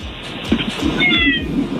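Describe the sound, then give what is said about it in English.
A cat meows with a brief, drawn-out, fairly loud cry over a low, steady background hum. “Oh, that was the cat.”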